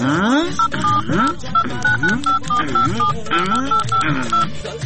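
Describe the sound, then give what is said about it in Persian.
Telephone keypad tones sound as a number is dialed, a rapid series of short beeps over a talking voice. “ای والا راست میگی، تو باش که برش یک زنگ بزنم.”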